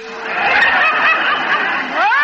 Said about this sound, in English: Oh, that's what you've got in that crate. 10 live, healthy turkeys. All 3 days old.